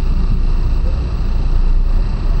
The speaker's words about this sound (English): Oh, what's happening up here? Somebody parking.